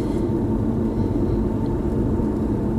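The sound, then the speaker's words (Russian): Road traffic rumbles steadily while driving through heavy two-way traffic, a dense, even low roar with no breaks and no talk. “Вот, вот такой вот творится трафик”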